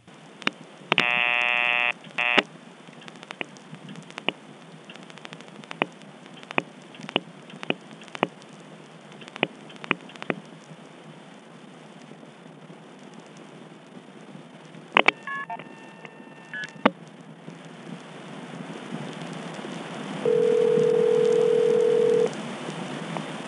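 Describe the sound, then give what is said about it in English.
A telephone dials 1 plus a vacant code through a switching office. A brief tone is followed by a series of sharp clicks, then a short burst of multitone signaling, and finally a steady single tone at the end. “I'm going to dial 1+ a vacant code, and we'll see.”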